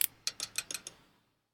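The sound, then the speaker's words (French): A clockwork automaton mechanism clicks through a drawing motion, with a quick series of sharp metallic ticks that grow fainter until it stops, then silence. “Et là, alors que l'automate est en train de tirer quelques petits traits, la machine s'arrête.”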